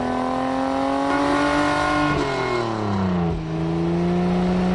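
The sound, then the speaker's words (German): A racing car speeds along a street, its engine a loud, steady, buzzing drone whose pitch climbs slowly, then drops twice in quick succession before settling into a lower hum. “Und schwupps ist Kalli ein Kalli-Rennauto und saust die Straße entlang.”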